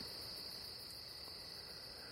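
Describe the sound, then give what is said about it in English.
Night insects chirp outdoors in a steady, shrill, unbroken drone, faint and even throughout with no voices. “So thank you, bugs. Thank you for your... Is this a cacophony or some such thing?”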